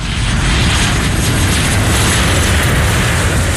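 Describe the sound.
Loud, steady roar of an airplane engine, used as a sound effect for a comedy flight-landing sketch about Extreme Airlines. The dense rumble holds constant throughout, with no talk over it.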